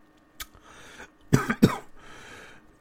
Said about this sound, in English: I swear I don't have COVID. That was just dry throat.